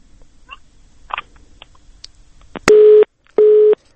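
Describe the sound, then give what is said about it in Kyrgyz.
A telephone busy tone from a failed call to a correspondent: two long, steady, loud beeps with a short gap between them, preceded by faint clicks and line noise. “Техникалык себептерге байланыштуу биз телефон аркылуу Оштогу кабарчыбыз менен байланыша албай жатабыз.”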